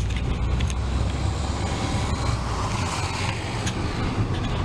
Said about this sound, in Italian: camion che entrano qui e che girano per andare di là e camion che arrivano da dietro.